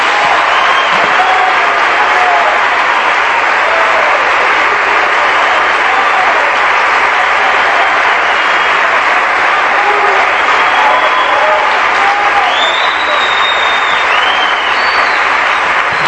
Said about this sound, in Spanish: los que entendieron van a darle un aplauso al Señor.